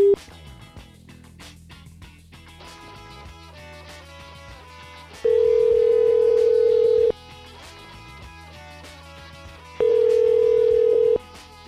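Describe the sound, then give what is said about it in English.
Ringback tone of an unanswered phone call, two steady, sustained rings spaced several seconds apart over continuous background music. “I don't think Bryce is going to pick up.”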